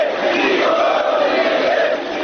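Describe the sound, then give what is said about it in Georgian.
Chanting from a large protest crowd at a demonstration in Chișinău demanding the resignation of the president and government, a loud, dense roar of many voices shouting together without a break. “გამარჯვება, გადადექით. ეს შეძახილები ისმის მანიფესტაციაზე.”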